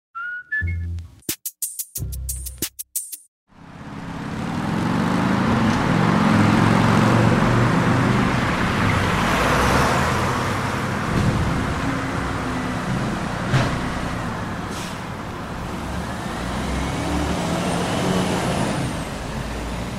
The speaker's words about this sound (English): I live in Montreal, on a major street. It's loud, like really loud, for almost 18 hours a day.